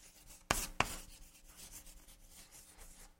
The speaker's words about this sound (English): Let me write that down.